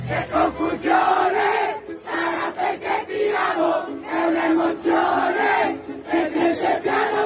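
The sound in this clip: A large crowd sings an Italian pop song loudly and fervently, many voices merging into a sustained, tuneful roar with steady phrasing and no pauses.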